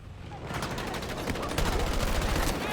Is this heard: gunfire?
yes